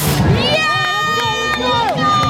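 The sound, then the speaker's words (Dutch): A crowd cheers on runners at the start of a 10 km race: a dense, continuous wash of cheering and voices with sustained high, tonal whistle-like sounds riding over it throughout. “Jullie staan hier lekker aan te moedigen.”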